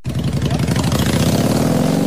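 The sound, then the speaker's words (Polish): Motorcycle engines at a rally of riders from across Poland throb in a loud, steady, rapidly pulsing drone with a rich buzzing tone that holds evenly for the whole clip. “Głośne maszyny dziś w Czerwonym Borze. Motocykliści całej Polski przyjechali na zlot.”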